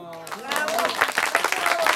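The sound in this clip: Audience clapping at the end of a Kasperl puppet show, a busy patter of hands under voices, growing a little denser toward the end.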